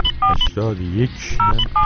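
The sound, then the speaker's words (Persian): Keypad tones ring out as a telephone number is dialed: several short, loud dual-tone beeps in quick succession, with a voice heard briefly between them. “بله، بنده الان در حال شماره گیری هستم.”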